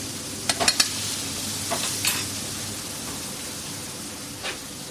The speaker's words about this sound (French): On voit qu'il manque encore un petit peu de cuisson. On va surtout checker les pommes de terre et c'est à ce moment là maintenant où on va rajouter le garou qui était en train de cuire à part.